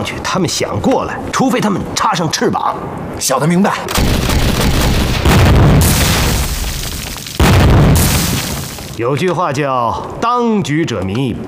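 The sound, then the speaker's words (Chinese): Artillery shells explode during the shelling of a mountain position in a long, loud, roaring barrage of booms and rumbling blasts, with people talking before and after it. “解放军刚才炮击南天门，现在炮弹打到乌龙顶来了。”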